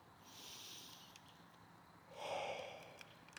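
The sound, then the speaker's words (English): A slow, deep breath drawn in through the nose and released out through the mouth during a guided relaxation, two soft airy swells, faint and alone, the exhale slightly stronger. “Let's take a couple of deep breaths together to commemorate quite a journey walk together. Breathe in through nose and out through mouth.”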